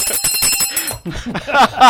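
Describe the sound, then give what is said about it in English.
A bell rings to signal that time is up, giving a bright, metallic, rapidly repeated ringing that fills the whole short clip. “And the bell tolls.”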